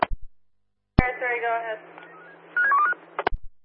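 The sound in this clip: Telephone keypad dialing tones: a click, a voice speaking briefly, then a short run of quick, fairly quiet electronic beeps, ending with a few more clicks.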